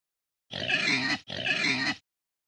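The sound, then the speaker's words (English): A pig grunts twice back to back, two long, raspy, fairly loud snorts separated by a brief gap, with nothing else heard around them. “Pig.”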